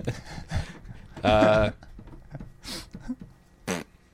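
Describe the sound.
A voice imitates a fart with one brief, loud, buzzy raspberry, set among a few shorter breathy vocal sounds.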